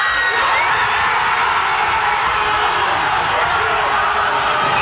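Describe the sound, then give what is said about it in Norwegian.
A crowd cheers during a football World Cup victory celebration at a local pub in Hammerfest. Shouting and whooping voices blend into a dense, continuous, high-energy roar at a steady loud level. “Ja, det var både allsang, roing og full jubel i Hammerfest.”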